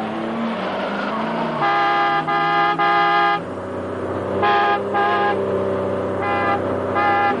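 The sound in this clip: A car overtaking another on a curve in a road chase, its steady low engine drone overlaid by many short, loud horn honks in clustered bursts.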